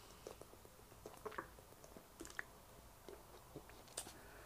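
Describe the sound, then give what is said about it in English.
Someone drinking a cup of ice-cold purified water with lemon: faint, wet sips and swallows with soft irregular mouth clicks, quiet throughout. “Let me drink a cup of water.”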